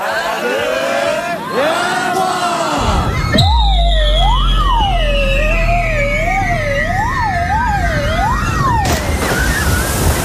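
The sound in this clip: Comic sound effect for a slide ride and a dive into water on a game show. Whistling glides rise and fall, then a long wavering siren-like tone runs over a deep rumble before cutting off abruptly.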